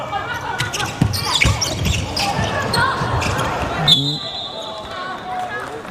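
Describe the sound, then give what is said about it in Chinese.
A basketball is dribbled on court during a game involving China's national team, its repeated dull bounces heard under a commentator speaking. “昆川出现了一个失误，自己运球的时候滑了一下，马上贾赛奇扑上去形成争球”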